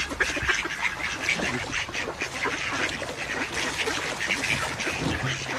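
Many ducks quack at a duck hunt with decoys set out, a dense, continuous chorus of overlapping calls that stays loud throughout with no pauses.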